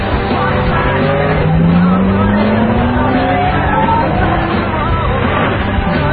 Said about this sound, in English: Stop the car!